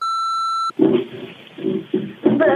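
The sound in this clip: An answering machine beep sounds as a single steady electronic tone for under a second, then a person starts talking right after it.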